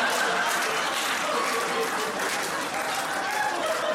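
Audience at a comedy show cheering and applauding a stand-up comedian, a dense, sustained roar of clapping mixed with crowd noise that stays loud and steady throughout.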